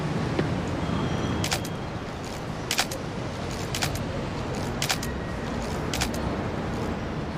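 A camera shutter clicks several times while taking photos, each sharp snap standing apart at irregular gaps over a steady low rumble.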